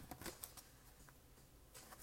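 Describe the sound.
Soft, faint papery flutters of tarot cards being shuffled and drawn, a few quick riffling bursts near the start and again at the end, with a quieter stretch between.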